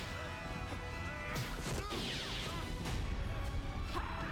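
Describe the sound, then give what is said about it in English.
Heavy crashing impacts as a TV show character slams back-first into something in a wire-work fight scene, with sparks flying, a dense, loud smash with sharp whooshes over a sustained tonal backdrop. “You know, it's crazy when you can hit so hard that you slam into the thing with your back and the sparks come out of your chest.”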